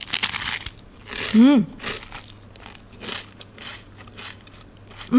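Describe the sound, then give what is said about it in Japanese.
Crisp crunching as someone bites into a light, sweet-shrimp rice cracker (amaebi senbei) from a Kaga Jinya wagashi shop in Ishikawa. Several brittle crackles and chewing crunches are heard, with a short appreciative hum. “いただきます。うん、あ、もうパリパリサクサクの軽いです。とってもサクサク。”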